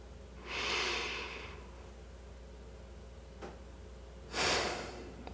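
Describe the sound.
Two slow breaths, a drawn-in breath and then a calming exhale, each a soft airy rush lasting about a second. A long quiet pause separates them, with a faint click in between.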